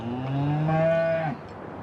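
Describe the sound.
A cow on a farm lets out a single long, low moo that holds for over a second before breaking off, leaving quiet background.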